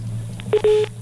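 Telephone ringing tone on a call: a steady mid-pitched electronic tone in a few short bursts over a constant low hum, with faint clicks between them.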